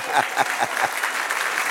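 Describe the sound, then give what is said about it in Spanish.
A church audience applauding the Lord during a Spanish-language sermon: a few distinct, evenly spaced claps at first, which then blend into a continuous, moderately loud patter of many hands. “Dale otro aplauso al Señor.”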